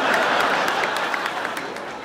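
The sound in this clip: An audience breaks into applause, a fairly loud, even wash of clapping that fades slightly toward the end.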